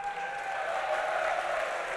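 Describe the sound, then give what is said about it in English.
An audience applauds at a football club gathering with a steady, even rush of clapping that holds at a moderate level for about two seconds. “That definitely deserves a round of applause.”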